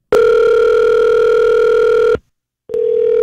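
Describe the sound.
Telephone tone on a call: a loud, steady electronic tone held for about two seconds, cutting off briefly, then sounding again.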